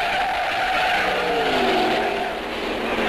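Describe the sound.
Racing cars at high speed at the Mexican Grand Prix: a continuous loud engine roar with whining tones that slide down in pitch, plus tire noise. The sound stays intense throughout.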